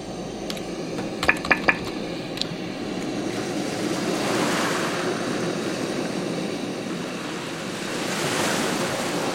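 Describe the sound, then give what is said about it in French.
Sea waves from an online virtual world give a steady, hissing wash of surf, with swells rising around the middle and again near the end. A few short clicks sound early on over the constant rushing noise. “Et vous avez la mer, là.”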